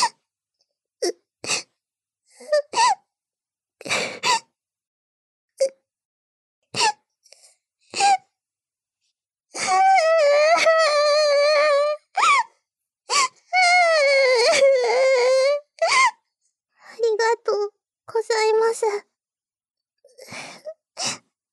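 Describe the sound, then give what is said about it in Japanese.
A person is crying and sobbing: many short, broken gasps and sniffles separated by silence, then two long, wavering wails in the middle, followed by more scattered sobs. “彼女の前で泣いちゃダメですよ。泣かないで、先輩。”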